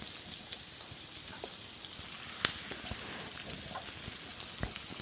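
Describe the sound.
Steady sizzle of food frying in neutral oil in a pan: a continuous soft hiss broken by scattered crackles and one sharper pop near the middle.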